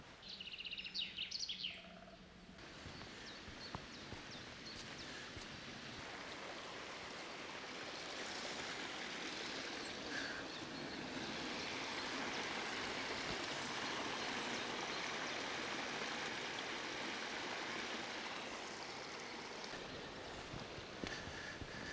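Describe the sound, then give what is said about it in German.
Spring water runs across a mountain path, spilling from a larger spring at several points down the slope. It makes a steady, broad rushing and trickling sound that swells slightly midway and continues for the whole clip. “Hier läuft Wasser über den Weg, was aus einer größeren Quelle kommt und sich nicht nur an einer Stelle durch den Hang Bahn bricht, sondern auf mehrere Stellen verteilt”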